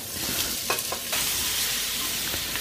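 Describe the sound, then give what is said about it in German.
Onions frying in oil in a pot after meat has been browned in it: a steady, dense sizzle runs throughout, with a few brief stirring clicks. “Erstmal wieder ein bisschen Öl. Das hat jetzt hier das melierte Fleisch ganz gut aufgesogen. Ein bisschen was wollen die Zwiebeln ja auch zum Braten haben. Und dann rein damit.”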